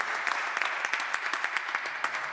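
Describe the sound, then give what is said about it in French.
Audience applause at a worship concert, with dense, even clapping that stays fairly faint and steady throughout, with no voices over it. “On peut applaudir Rebecca qui nous a fait la joie de chanter avec nous.”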